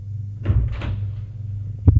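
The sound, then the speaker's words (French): Elevator doors sliding open and shut over a steady low hum: a soft rumbling slide, then a sharp thud near the end. “Il entre dans l'ascenseur. Et sort de l'ascenseur.”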